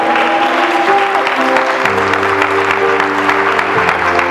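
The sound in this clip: An audience in church applauding with loud, dense clapping that continues throughout, over sustained tones that shift pitch underneath.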